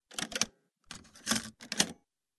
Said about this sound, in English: A cassette player. Really? What year is this?